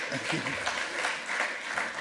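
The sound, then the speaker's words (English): Audience applause for a colleague, a continuous patter of many hands clapping at moderate volume with some voices mixed in. “So give him a round of applause for.”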